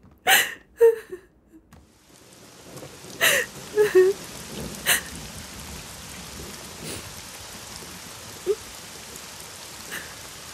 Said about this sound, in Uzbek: Yomg'irni yaxshi ko'raman. Yomg'irda ko'z yoshlaring bilinmaydi.